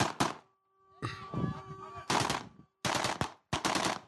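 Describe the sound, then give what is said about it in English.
Gunshots fired at a wedding, aimed at angles rather than straight up: sharp, loud cracks in several rapid bursts, some clustering like automatic fire, separated by brief pauses. “They're not even shooting directly in the air. They're shooting, like, on angles.”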